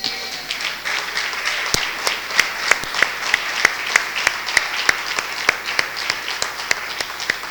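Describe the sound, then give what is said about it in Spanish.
Congregation applauding during a church sermon, steady dense clapping with sharp individual claps standing out rhythmically throughout, fairly loud and alone without talk. “¿Le puedes dar un aplauso al Señor?”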